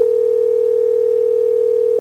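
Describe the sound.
A telephone tone on a call that goes unanswered: one steady, unbroken mid-pitched hum for about two seconds, then an abrupt cutoff.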